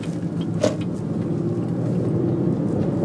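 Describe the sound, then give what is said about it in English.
Steady car road and engine noise on a commute drive through Houston, a constant low rumble that holds evenly throughout with no talk over it. “I'm just driving the commute.”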